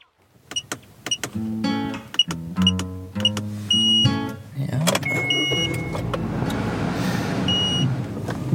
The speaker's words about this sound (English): Driving in Israel.